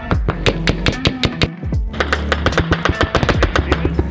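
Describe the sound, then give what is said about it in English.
Machine gun fire in a combat skit, rapid loud shots in a steady, evenly spaced rhythm that keep going with only a brief pause near the middle. “We have effective fire on our position.”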